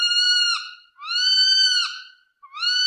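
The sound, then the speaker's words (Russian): An owl gives an eerie, howling cry: two long, clear, whistle-like wails, each held steady before dipping at the end, followed by the start of a third, with silence between calls. “«Что это?» — пролепетала она. «Сыч!» — пояснил господин Хаффербрун.”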